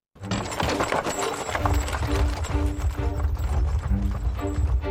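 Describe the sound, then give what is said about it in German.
Hooves clip-clop steadily as a horse-drawn carriage travels through 18th-century France in a video game. The busy, continuous rumble of hooves and wheels carries on throughout, with sustained tones layered over it. “Man sitzt in einer Kutsche. Man fährt durchs Frankreich des 18. Jahrhunderts. Von Ort zu Ort.”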